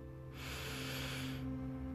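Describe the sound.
A deep inhale during a yoga breathing exercise: one long, steady, breathy hiss of about a second that swells in and then stops, with quiet before and after.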